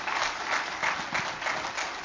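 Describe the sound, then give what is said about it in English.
A church audience applauding during a morning service: dense, steady clapping that holds at an even level throughout, with slight swells and no pause. “Give the Lord a good clap offering this morning.”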